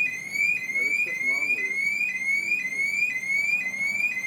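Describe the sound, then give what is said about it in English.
Car alarm going off, many rapid rising whoops repeating about twice a second in a loud, relentless pattern, with a voice briefly talking underneath. “So, yeah, that's a car alarm. God, that's annoying. Hey, look, it's going off again.”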